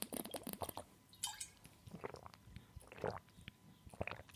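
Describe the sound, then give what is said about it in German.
Someone sipping a drink and swallowing: a few faint, wet mouth sounds and soft gulps spread across several seconds, quiet and with no speech. “Naja, ich trinke erstmal vorweg einen Schluck und dann widmen wir uns dem heutigen Thema.”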